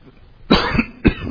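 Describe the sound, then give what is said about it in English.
Two sharp, loud coughs from someone who has had something go down the wrong pipe. The first has a short rasping tail, and the second follows about half a second later. “Excuse me. Wrong pipe.”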